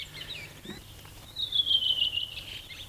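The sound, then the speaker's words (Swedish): A fieldfare sings a thin, high-pitched, squeaky chatter. It is faint at first, then a louder, sweeping phrase fills the second half. “Och sen kommer det ett litet björktrast. Krax efteråt. Och så sitter en annan han och sjunger en bit bort och svarar.”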